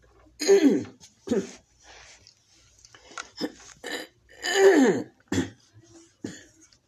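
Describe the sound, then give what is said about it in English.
Someone clears a husky throat during a scripture reading, a series of harsh, rasping coughs and throat clearings in several separate bursts with quiet gaps between, and no speech. “Sorry, I have a little bit of fog in my throat. Think you're getting rid of it, and it just keeps coming back.”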